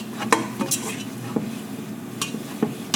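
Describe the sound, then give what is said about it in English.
Wooden spoon stirring choux dough for chocolate eclairs in a pan while the flour cooks out, giving irregular scrapes and light clinks against the pan over a low, steady background, with no talk. “So I'm gonna continue to let that cook for about another 30 seconds. Stirring all the while.”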